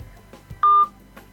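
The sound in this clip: A single telephone keypad dialing tone sounds as a loud, steady, pure beep lasting about a quarter second. Faint low noise surrounds it during a voice-controlled keypad dialing test.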